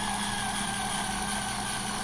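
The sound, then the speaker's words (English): A steady mechanical whir from the motor of a drill-shaped electric tool as it pumps medium into a membrane conformed to an ear canal. The hum stays constant and even throughout, with no talking. “That sound is the motor dispensing my medium into that membrane that's conformed now to your ear canal.”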